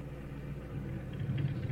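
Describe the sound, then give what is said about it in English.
A stopped car idles with a low, steady engine rumble that stays even and faint throughout, with no talk. “Norm, I just thought. Stop here a minute. Stop the car.”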